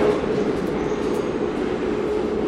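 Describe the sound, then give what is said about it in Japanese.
A white and green train runs along the rails near a platform in Nagoya. It makes a steady, loud rumble with a hissing wash over the full two and a half seconds, with no distinct wheel clacks standing out. “映画浪人にも出てくるこの白と緑の電車。”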